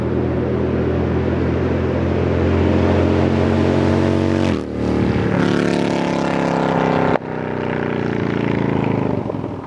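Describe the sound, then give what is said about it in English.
Motorcycle engine running as a loud, steady, droning roar throughout, with two brief dips in the sound partway through. “John to ride that bike so he can enjoy that sound”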